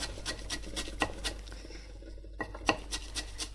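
Parsley finely chopped with a knife: a quiet, fairly regular run of soft taps and scraping strokes, with a short pause partway through before the cutting resumes.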